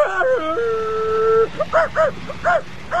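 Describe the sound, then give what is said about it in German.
A dog barks in a radio drama: a few short, yelping barks follow a sustained tone that steps in pitch, over a steady low background. “Was ist denn der Hund, der da so bellt? Ich hör's auch schon die ganze Zeit.”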